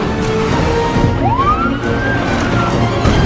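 A police car siren wails behind a car driving on a dark road, one clear rising sweep that holds high, sounding over a constant dense rumble of engine and road noise.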